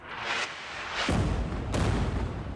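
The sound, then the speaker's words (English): A heavy explosion from an Israeli airstrike destroying a residential building in Beirut: a deep boom followed by rumbling noise, with a couple of sharper blasts around it. “Multiple videos recorded the moment an Israeli airstrike reduced this residential building to rubble and”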